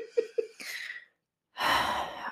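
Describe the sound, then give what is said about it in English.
Breathing directly into microphones: a few short voiced huffs lead into airy breath noise, then a brief silence and a loud, gusty exhale blown close to the mic. “stop breathing down the mics.”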